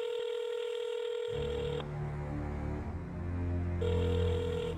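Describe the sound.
Telephone ringing during a call: two steady electronic rings separated by a pause. A bass-heavy music bed enters partway through the first ring and continues underneath.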